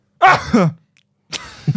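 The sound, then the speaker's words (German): A voice acts out a sneeze that comes out more like a coughing fit, with two throaty voiced bursts separated by a short silence. The first burst is loud and strained, and the second is rougher and weaker. “Das sollte ein Nieser sein. Es kam aber nicht wie Nieser rüber, sondern wie ein Hustenanfall.”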